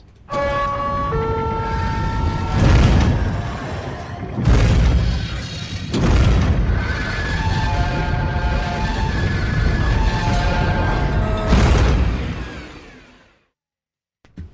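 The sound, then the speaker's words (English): Blast doors slamming shut in the hatch from the TV series Lost, with four heavy booming impacts spread across a sustained, ringing, alarm-like tone that holds throughout before cutting off. “Okay, that's actually from the television series Lost. Yeah, Yeah, the blast doors that come down in the hatch.”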